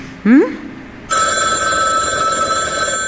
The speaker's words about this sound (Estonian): Vabandust, mul poeg helistab.